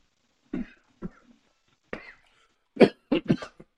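A run of coughs after coffee went down the wrong way. Several short, harsh bursts come unevenly spaced, with a tight cluster of quicker coughs near the end, and no talking in between.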